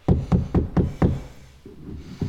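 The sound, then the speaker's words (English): Knocking on the door of one's own room: five firm, evenly spaced knocks in quick succession, followed by quieter, softer sounds. “Why am I knocking? This is my room.”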